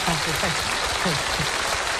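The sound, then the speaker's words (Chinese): An audience applauds comedians at a Chinese crosstalk comedy show. Steady clapping runs under a performer's talking voice. “你看我一上来这掌声就这么热烈啊！”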